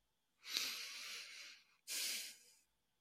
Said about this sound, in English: And I want you to take three breaths.